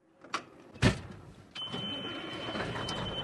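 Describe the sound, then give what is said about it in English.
A diesel truck rig's engine starts up: two sharp knocks, then a sudden steady rumble with a thin high whine that holds to the end. “Jeff Perkins starts up one of his rigs and drives to the local GoMart gas station.”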